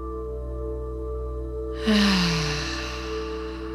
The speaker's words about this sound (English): Deep breath in.